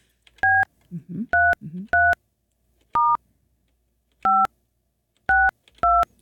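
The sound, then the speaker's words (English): Telephone keypad tones from dialing a number: seven short, loud, steady beeps in an uneven rhythm, with brief low voice murmurs between the first few. “Hopefully I dialed the right number.”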